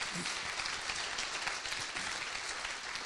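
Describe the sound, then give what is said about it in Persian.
Dense, steady audience applause in memory of a late airline captain, a continuous wash of many hands clapping at an even level throughout, without voices on top. “برای شادی روح کپتان نیکخا هم یه دست محکم بزنیم.”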